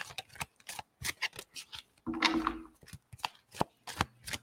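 Oracle cards are handled and shuffled in many crisp, papery snaps and slaps. One longer riffling rush comes midway, and the short sharp bursts are uneven and moderately loud.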